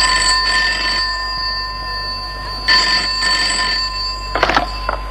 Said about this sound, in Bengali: দেখো আবার ফোন এলো কার।